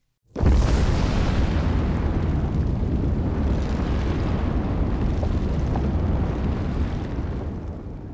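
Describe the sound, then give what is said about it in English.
An explosive volcanic eruption hurls hot lava, rock fragments and ash, bursting in abruptly and holding as a loud, dense, continuous roar and rumble that stays heavy for several seconds before easing slightly at the end. “An explosive eruption is how it sounds. It's more dramatic and violent, with hot lava, rock fragments, and ash quickly exploding out of a volcano.”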